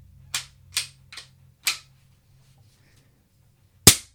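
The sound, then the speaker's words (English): Dry fire of a single-shot gun fitted with a slip-over moderator, held close to a microphone: five sharp, dry snapping clicks. Four come in quick, uneven succession, then a louder one follows after a pause. “Then I found this off-the-wall slip-over moderator. And without it, it's pretty loud. With it, it sounds broken. Well, why don't you dry fire it by your mic for the listeners?”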